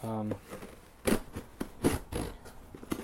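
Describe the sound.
A taped cardboard package box, a big one holding a few ordered items, is opened with a few short scraping, rustling bursts of tape and cardboard, following a brief voice at the start.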